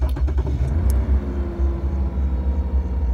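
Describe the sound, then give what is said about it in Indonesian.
A car pulling away from a quiet petrol station gives off a low, steady engine rumble throughout, with a few faint clicks at the start. “Dimas langsung mengajak Ayu segera tancap gas dan keluar pom bensin”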